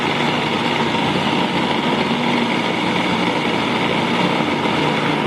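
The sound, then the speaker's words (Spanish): A food processor blends strawberries with a loud, continuous motor whir that stays steady and even from start to finish, with no voices. “Entonces vamos a licuar las fresas, a moler las fresas.”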